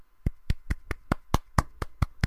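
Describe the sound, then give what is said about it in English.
One person clapping hands in a round of applause, ten sharp, crisp claps at an even, unhurried pace, each a distinct slap with nothing else around it. “yes, I'm giving Zoe's Extraordinary Playlist season 2 episode 1 an actual round of applause. I'll have to see how loud that is in the editing”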